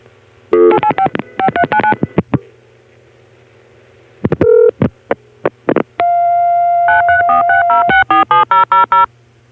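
A telephone call diverter dials out a number in DTMF tones: quick clusters of short, sharp beeps, then a sustained steady tone lasting about two seconds, followed by another rapid run of beeps over a low hum.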